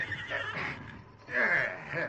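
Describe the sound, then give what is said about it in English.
Horses neighing in a barn: a couple of drawn-out, wavering whinnies, the second one louder, each standing out clearly on its own. “Soon the horses were made comfortable in the barn.”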